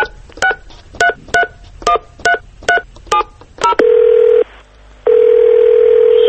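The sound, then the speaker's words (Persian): Telephone keypad dialing a number: a quick series of short touch-tone beeps, then two long steady ringing tones separated by a brief gap. “شماره اینو بگیرم”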